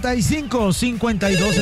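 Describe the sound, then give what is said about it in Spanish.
A telephone rings for an incoming call to a radio phone-in, a loud warbling ring that pulses in quick repeated cycles throughout. “Vamos con llamada, atiéndela”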